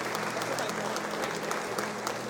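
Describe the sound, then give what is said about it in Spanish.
A church audience gives steady, dense applause for the altar servers and the choir. The clapping stays fairly faint and even throughout, with no voices over it. “Les voy a pedir un fuerte aplauso para el equipo de los monaguillos. Otro para el coro también. Otro aplauso para el coro.”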